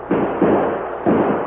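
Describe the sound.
Gunshots in a Western drama: three loud, sharp reports, each with a rough, lingering tail, fired in quick succession.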